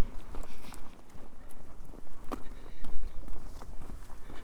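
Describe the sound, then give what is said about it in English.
Footsteps walk high up along a minor road toward Coney's Castle. The steps are soft and repeat unevenly against low background noise. “I'm walking high up along a minor road heading towards Coney's Castle.”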